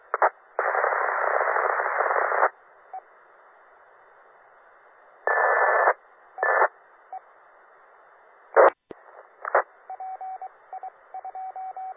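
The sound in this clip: Beep tones on a phone line come through a 2-meter amateur radio link, with long bursts of band-limited hiss and crackle followed by a few short, steady, evenly spaced beeps near the end.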